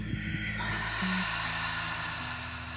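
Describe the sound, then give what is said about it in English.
Breathy exhale during a yoga breathing exercise, a soft, steady rush of air lasting the whole moment, heard alone over a faint low hum with no talking. “Inhale. Audible exhale.”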